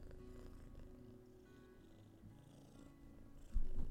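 A male cat purrs at home in a quiet, continuous low rumble that pulses steadily, with a brief louder bump near the end.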